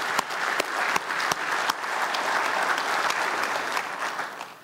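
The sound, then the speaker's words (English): An audience applauds the performers with sustained, dense clapping that holds steady for several seconds, a few sharper individual claps cutting through early on. “these people up here, they practice, they do a lot of work to prepare for what they do here, and let's give them an appreciation today.”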